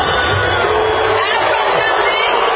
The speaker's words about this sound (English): This is the Somalian Music Fest in Minnesota. When Ilhan Omar gets up on the stage, she is booed.